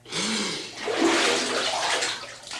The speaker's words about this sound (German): Dann tauchen wir jetzt gleichzeitig.